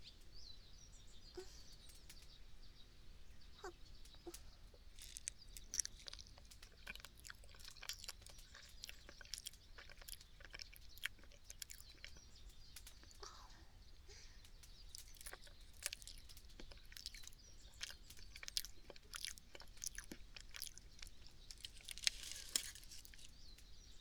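Chewing of baked sweet potato outdoors in an autumn breeze: many soft, irregular crunchy bites and mouth clicks, faint and steady throughout, with no talking.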